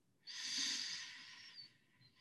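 A slow, deep inhalation during a guided breathing exercise in a field: one steady airy hiss that swells quickly and holds for about one and a half seconds before easing off, with no talk over it.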